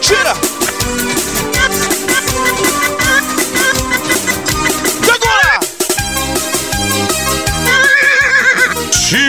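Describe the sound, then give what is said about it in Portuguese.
A horse neighing, the Marajó horse, in a live DJ set from Cachoeira do Arari. Loud, driving electronic music plays throughout, and a whinny-like cry rises out of it briefly. “Segura que é o Cavalo do Marajó.”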